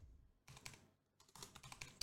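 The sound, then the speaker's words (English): Quiet clicking of fingers typing on a computer keyboard, in two short bursts of rapid keystrokes separated by a brief pause. “I guess what I'm gonna have to do is just type in their names”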